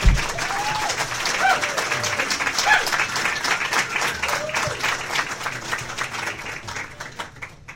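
A studio audience cheers, hoots and applauds as debate candidates are invited to their podiums. Steady, dense clapping with whistles and cheers runs throughout and tapers slightly at the end.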